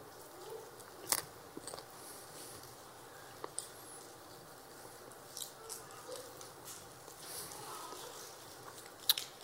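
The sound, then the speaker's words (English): A communion wafer is eaten with faint, crisp crunches and bites scattered over a quiet background, some clicks sharper than others. “This wafer represents the body of Christ given for you. Eat it in remembrance of Jesus Christ.”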